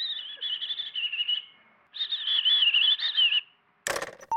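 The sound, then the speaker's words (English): High, warbling robin song, two sustained chirping phrases separated by a short gap, followed by a brief sharp noise burst at the end. “this is what a robin sounds like”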